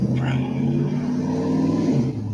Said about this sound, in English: Drag race.